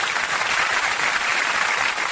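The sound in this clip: Audience applause for a singer named Lisa on an Italian music show: a steady, dense, even spread of clapping that holds from start to finish.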